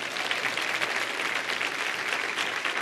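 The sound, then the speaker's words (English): Steady, dense applause from a studio audience clapping toward the cameras during a Bible training session. It holds even and unbroken from start to end, with no voices over it. “Go ahead and clap. Turn around to the cameras and give the internet audience a hand. Give them a hand.”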